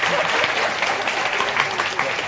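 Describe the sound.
An audience claps together to vote for a contestant at a stage game, producing dense, steady applause. It stays fairly loud and even from start to finish.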